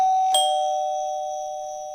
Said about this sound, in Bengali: তবুও সেসব দিকে নজর না দিয়ে কলিং বেল বাজালো